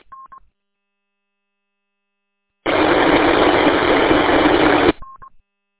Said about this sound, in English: Well, I heard something break squelch,